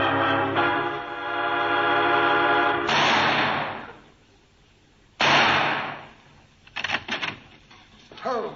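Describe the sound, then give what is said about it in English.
Gunshots ring out during target practice at night. Two loud cracks each trail off in a long decay, followed by a quick cluster of sharper shots. “Shooting? Yes, that's obvious. I may say it was obvious the moment I turned the corner of Marybone Road. What's the idea of target practice this hour of the night?”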